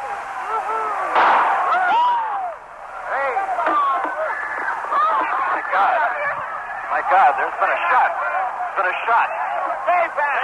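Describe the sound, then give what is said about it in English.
A gunshot fired at President Ford as he walked out of San Francisco's St. Francis Hotel. A sharp report is followed by loud, continuous crowd commotion with agitated voices. “There's been a shot. In this case, the assailant was a woman named Sarah Jane Moore. She missed.”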